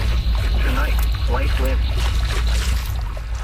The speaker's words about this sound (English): You're just going to keep on paddling. Yeah, keep on paddling.